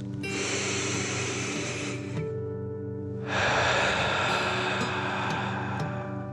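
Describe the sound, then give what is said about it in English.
Deep meditative breathing: one long, loud, airy inhale through the nose, a short pause, then a longer, rushing exhale out through the mouth, with no voices. “Breathe in through your nose and breathe fire out of your mouth. Again, deep breath in and out.”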